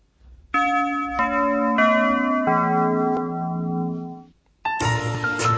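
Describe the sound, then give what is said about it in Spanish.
Small bells chime from an independent video game in development, ringing a few sustained, overlapping tones that step through different pitches and slowly fade, then a fresh, bright chime starts after a short silent gap. “Campanillas.”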